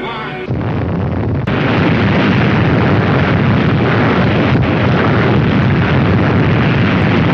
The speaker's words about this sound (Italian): Ecco, sfumiamo questa esplosione micidiale.